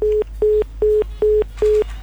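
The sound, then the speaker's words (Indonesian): Short, evenly spaced beeps of a telephone busy tone after a caller to a radio call-in line is dropped. A single steady mid-pitched tone pulses on and off at a regular, even pace, loud and without voices. “Oke, satu penelpon lagi di 976, kita coba sapa terlebih dulu.”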